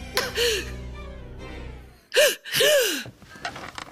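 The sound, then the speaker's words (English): A poisoned woman gasping for breath: a few strained, voiced gasps with wavering pitch, separated by ragged breaths and short pauses, fairly faint and without talk. “She can't breathe. Of course she can't breathe. She's been poisoned.”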